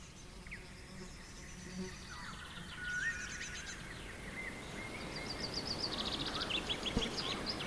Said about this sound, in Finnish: Lintujen liverrystä, hyönteisten surinaa ja tuulen huminaa.